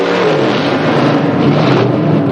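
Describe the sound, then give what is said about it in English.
Car engines revving side by side at a traffic light, one a shiny black Chevy, producing a loud, steady, throaty roar that holds without pause and carries no talk. “revs his engine. The cowboy follows suit.”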